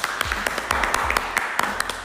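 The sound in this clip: Scattered applause from a small audience: many distinct individual claps landing in an uneven rhythm, moderately loud, without a full, continuous wash.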